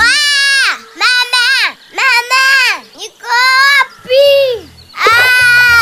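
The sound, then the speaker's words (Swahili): A child cries in loud, high-pitched wailing bursts, six drawn-out sobs separated by short gasping breaks. “Afadhali sasa. He? Analia tena. Tatizo nini?”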